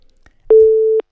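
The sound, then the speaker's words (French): A single steady, mid-pitched telephone line tone lasting about half a second, heard on a call to a mobile phone in Israel. Faint soft noise comes just before it. “nous avons toujours ce problème récurrent de la relation entre notre téléphone et les téléphones portables en Israël.”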